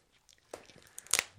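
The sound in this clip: Short crinkling and crunching of a crinkly plastic wrapper as cotton candy is eaten from it, quiet at first, then a few sharp crackles that build to a louder burst near the end.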